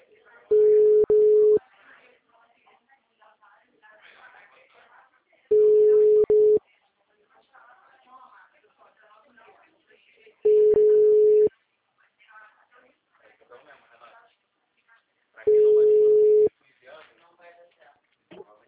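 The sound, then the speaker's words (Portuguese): Telephone busy tone after a dropped call: four steady low beeps, each about a second long and spaced roughly five seconds apart, with a person talking in the gaps between them. “Oi, Ludmila, caiu a ligação.”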